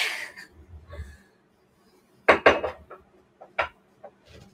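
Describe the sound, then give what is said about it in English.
Struggling to open a jar of organic extra virgin coconut oil while baking pumpkin blondies: soft strained breathing and scuffs, a pause, then a burst of sharp knocks and clatters of lid and glass, followed by a few scattered clicks. “So I just have some organic extra virgin coconut oil. This is my favorite kind. Oh, please open. Oh my God, please.”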